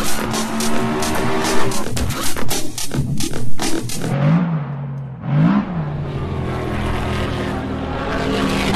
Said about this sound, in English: The flag drops and they're off! And straight away, the Porsche 918 RSR spears off up the start-finish straight.